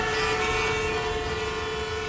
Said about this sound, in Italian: È il rumore del traffico, macchine, moto, autobus.